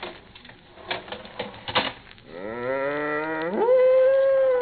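A milk cow moos in a barn as morning milking is about to begin. A few light clattering taps come first, then a long, loud, low moo that swells and rises in pitch toward its close.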